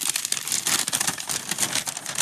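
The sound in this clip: Crinkling and rustling of a sheet of paper being handled, a continuous dry crackle lasting about two seconds, with no voices.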